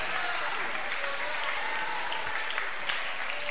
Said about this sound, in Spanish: Fuertes aplausos. Fuerte.